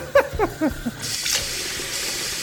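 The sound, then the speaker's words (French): Tap water runs over peeled onions being washed in a kitchen. A few short splashy sounds come first, then a steady, loud hiss of flowing water. “Les oignons sont épluchés maintenant. Au lavage.”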